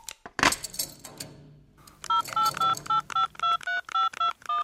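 Telephone keypad tones ring out as a number is dialed: a rapid string of about a dozen short, bright beeps in a quick, fairly even rhythm, clear and loud, after a brief clatter.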